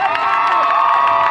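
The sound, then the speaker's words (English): A crowd cheers at a high school graduation, with loud, continuous shouting and high whoops layered over the steady roar. “That's the sound of high school graduation.”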